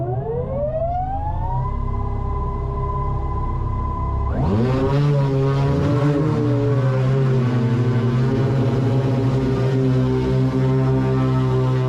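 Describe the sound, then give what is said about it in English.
A VTOL aircraft lifts off in a hover: its engine whine climbs in pitch and then holds steady, until a loud, broad roar of thrust surges in and continues unbroken to the end. “So this was going to be my first real flight in this, and immediately after takeoff I perform a 180 degree yaw, push forwards on the stick, accelerate forwards”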